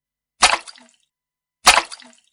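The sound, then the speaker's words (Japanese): Water is splashed from a ladle out of a bucket in two sharp, wet bursts about a second apart, each quickly fading, with silence between them and no voices. “私の着ていたものが濡れてしまったではないですか。おかみさんは桶に汲んであった水をひしゃくで、”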